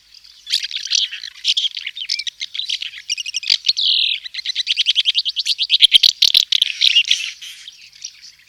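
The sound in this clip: House martin song near the nest, a prolonged babbling twitter of high, dry chirps and rapid trills strung together almost without pause, fairly loud and alone.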